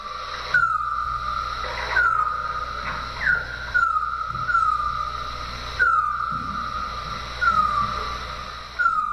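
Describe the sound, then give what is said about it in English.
Bat calls captured with an acoustic bat detector near a city park, heard as a series of short chirps that each sweep downward in pitch. They repeat at an irregular pace over a steady electronic hiss and a low hum. “This is the sound of a bat recorded near Terry Fox Park along Rue Saint-Jacques. This sound was gathered using wildlife acoustic technology.”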